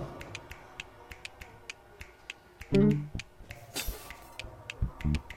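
Clamshells clapped together in a video game make a rapid, even series of sharp, thin clicks, with a heavier thump partway through and a few louder knocks near the end.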